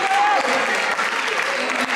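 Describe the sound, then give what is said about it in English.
A church audience claps its hands during a sermon, a brief burst of many hands clapping in a dense, fairly loud patter. “Clap your hands”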